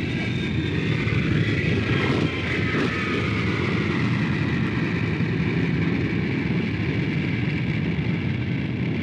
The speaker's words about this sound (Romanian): Avionul se pune în mișcare. Gata! Am decolat!